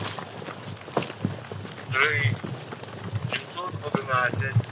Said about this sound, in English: Ukraine has shared this footage of the 100th Territorial Defense Brigade soldiers running into position.